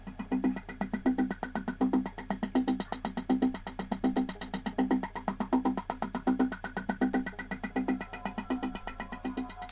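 A general's vehicle engine runs in an audio drama. It makes a steady, throbbing chug with a regular pulsing rhythm that holds fairly loud and unbroken, with no voices over it.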